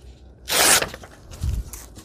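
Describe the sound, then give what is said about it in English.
Material torn along a tearing ruler while cutting pocket pieces for a closet project: one quick, bright rip lasting a fraction of a second, followed by faint rustling and a soft low thump. “Grab tearing ruler. Give this a quick tear.”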